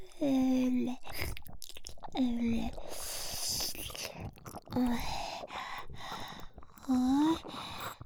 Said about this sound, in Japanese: 君のこと舐め放題なんて夢みたい。首筋のとこ汗の味がしておいしい。